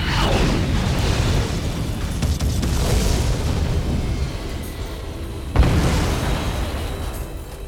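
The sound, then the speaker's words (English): A heat-seeking missile fires from a weapon pod under a stub wing and strikes its target: a sustained, loud booming roar with rolling surges and one sharp crack past the midpoint. “Lyons watched as the heatseeker missile shot from the weapon pod under Dragon Slayer's stub wing and lanced across the sky, curving slightly as it picked up the source from its target.”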